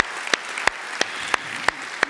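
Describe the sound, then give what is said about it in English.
Sharp, evenly spaced claps given for mothers on Mother's Day at Emmanuel: six distinct hand claps at a slow, steady pace over a constant background hiss. “Can we give it up for them?”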